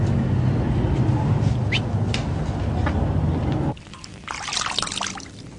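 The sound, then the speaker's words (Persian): Water splashes and trickles as feet soak and wash in a basin, a steady sloshing wash that drops off abruptly and returns as lighter, brighter splashing. “یعقوب پاهاش رو گذاشته توی تشت آب رو داره خودش رو پاشویه میکنه.”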